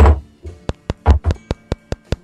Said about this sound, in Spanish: Ah, sí, pues están llamando a la puerta.